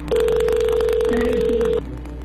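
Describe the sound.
Telephone tone as a call is dialed: a single long, steady mid-pitched tone lasting under two seconds, heard over continuous background noise with a faint murmur.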